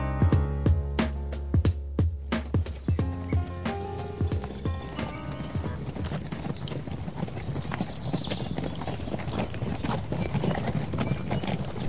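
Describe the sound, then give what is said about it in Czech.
Hooves clip-clop steadily as a horse is harnessed to a cart and sets off toward a mountain, the distinct hoofbeats merging into a denser, continuous clatter. “Zapřáhnu povoz a vyrazím k té hoře.”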